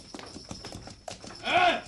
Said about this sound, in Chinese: 我听到有马车入紧嚟我哋条巷啊，一定系家姐翻嚟啦。